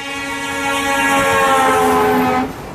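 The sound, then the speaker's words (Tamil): A passenger train approaching a station: a loud, sustained, harmonic horn-like tone over a rumbling bed that holds steady, then cuts off sharply near the end. “Tiruchendur passenger வண்டி வரும் நேரம் நெருங்கிவிட்டது.”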